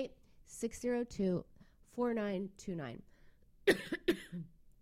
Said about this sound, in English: Nothing like having a coughing fit while you're doing your radio show.